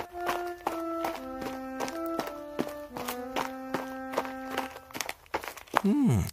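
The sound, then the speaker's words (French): Footsteps of someone walking tap out a steady, even rhythm beneath sustained musical tones, and a voice rises briefly at the end. “Ellie marche jour et nuit, 40 jours et 40 nuits.”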